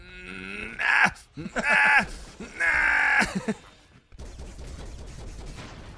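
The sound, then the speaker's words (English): Gunfire from the video game Broforce comes in loud bursts mixed with tonal, groaning game sounds, ending in a sustained noisy roar of rapid fire. “Look at my picture as I shoot the gun.”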